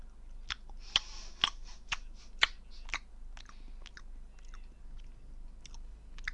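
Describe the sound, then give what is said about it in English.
Crunchy chewing of Marmite flavored peanuts, with a series of sharp, evenly spaced crunches giving way to softer, quieter mastication over a low steady hum. “I got a horrible taste in my mouth. I tried these Marmite flavored peanuts, but they're quite horrible peanuts. They're not nice.”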